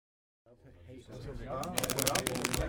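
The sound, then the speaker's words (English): Playing cards being shuffled and dealt at a men's poker game in a guards' barracks: a quick burst of crisp riffling clicks that follows a brief voice. “just deal the cards, will you”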